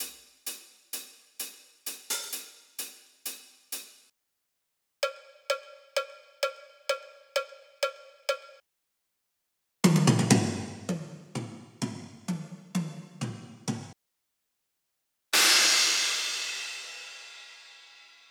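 Artificial, robotic programmed drum sounds in a very simple pattern: a run of short clicky hits, then a series of ringing, cowbell-like tonal hits, then a busier stretch of lower drum hits, each separated by brief silences, ending with one crash cymbal that slowly decays.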